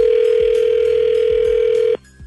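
A steady telephone dial tone hums at one constant pitch while a call is being placed, then cuts off abruptly near the end, leaving a faint quieter tone.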